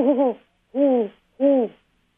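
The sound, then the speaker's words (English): A barred owl hooting three times in evenly spaced, mellow calls, the first with a wavering quaver, clear and alone. “I think it's the first. I think it's the barred owl. Barred owl.”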